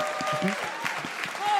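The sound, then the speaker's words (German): Audience applause for a young woman singled out from the crowd: a continuous wash of clapping at even strength, with speaking voices audible over it. “Yeah, Jana, ein Applaus für Jana.”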